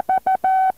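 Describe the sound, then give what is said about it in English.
Morse code tones for the slant bar, a clear, steady, mid-pitched beep keyed in loud pulses with no voices: two short tones, one long tone, then another tone beginning as the sound cuts off. “And finally, the slant bar, which sometimes you have after call letters indicating that the station is operating in a different location, sounds like this, the slant bar.”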